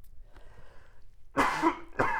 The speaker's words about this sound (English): Was that a sneeze or a cough? A cough.